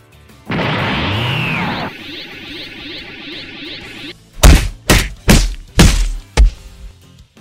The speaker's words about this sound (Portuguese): Depois, pega com esse mesmo salto, ele pega o impulso para frente e dá ali um, um golpe de cima para baixo para poder tentar arrancar sua cabeça com um golpe.